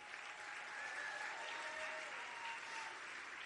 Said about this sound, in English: Some applause for Brian Papson.